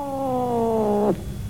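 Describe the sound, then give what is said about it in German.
A black cat meowing in greeting: one long, steady tone that drifts slightly lower, then drops off abruptly at its end. “Nostradamus, ihre schwarze Katze, begrüßte mich.”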